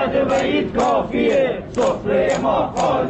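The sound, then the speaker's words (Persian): Protesting retirees in Rasht chant together in loud, rhythmic bursts of shouting voices, one phrase after another, while they rally over poor living conditions and spread empty tablecloths in protest. “در رشت بازنشستگان معترض سفره های خالی پهن کردند و اوضاع نابسامان معیشتی خود را به مسئولین گوش زد می کنند.”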